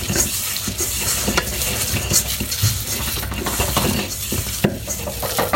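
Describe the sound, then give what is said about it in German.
An almond and sugar mixture is mixed by hand in a bowl, giving continuous scraping and stirring with many small clicks and knocks in an uneven rhythm. “Ich mische das jetzt hier in der Schüssel per Hand.”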